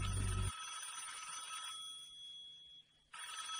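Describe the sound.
Telephone ringing faintly as a call is placed at midnight to a church: a steady, high, bell-like tone held for a few seconds, briefly breaking off near the end before resuming.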